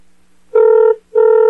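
A telephone line ringing after a number is dialed: two short, loud, steady ring tones of equal pitch, separated by a brief gap, with near silence before them.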